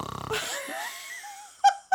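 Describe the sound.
Two people imitate snoring with their voices: a ribbed, pulsing rasp at first, then a drawn-out wheezy, moaning tone, ending in two short, loud snorting bursts.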